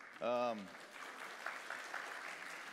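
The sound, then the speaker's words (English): Audience clapping at a church service, faint and scattered, following a brief spoken voice and continuing softly to the end. “And yeah, you can clap for that.”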